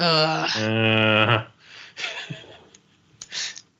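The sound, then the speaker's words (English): A drawn-out vocal groan, one sustained voiced tone lasting about a second and a half that dips in pitch early on, followed by quieter, breathy vocal sounds. “I think the groan sums it up.”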